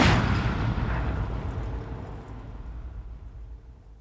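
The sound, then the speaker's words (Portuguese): A gunshot as a gun is fired at a police officer's head: a single sharp, loud blast at the start, followed by a long rumbling decay that fades over several seconds. “Pedro Dias aponta uma arma à cabeça do agente Carlos e, sem dar tempo para despedidas ou pedidos de misericórdia, dispara contra Carlos Caetano.”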